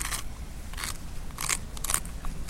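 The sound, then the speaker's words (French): One stone rubbed against another to grind powder, making a few short, dry, faint scraping strokes with a crackly, gritty texture. “En frottant cette pierre contre la pierre, je vais faire de la poudre.”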